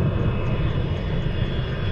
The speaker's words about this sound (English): Commander Scott Altman beginning to flare out the vehicle, pitch the nose up as he approaches runway 22 from the northeast.